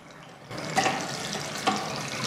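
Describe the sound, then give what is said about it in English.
Running tap water at a washroom sink as a man washes his face: a steady, bright rush of water begins after a brief quiet moment and carries on, with a couple of splashing surges. “He goes into the toilet and washes his face.”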